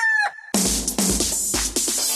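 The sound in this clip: A fighting rooster at a cockfighting tournament crows, a short clear call giving way to loud, harsh, drawn-out crowing broken into several surging bursts.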